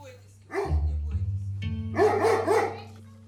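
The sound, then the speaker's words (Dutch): A pet dog barking, a few short, bright woofs, clustered in a quick burst near the end, over sustained low steady tones. “Geeft de hond een aai.”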